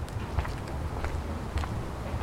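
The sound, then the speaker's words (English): Footsteps walking along a short street that climbs gradually up from a harbor: soft, low thuds at an even, unhurried pace, faint against a steady wash of outdoor noise. “As I walk along this short street, I'm heading in a strange direction.”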